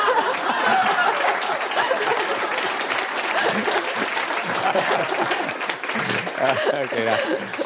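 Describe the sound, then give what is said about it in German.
An audience applauds with dense, steady clapping throughout, and voices can be heard talking over it. “Das ist Ihr Applaus.”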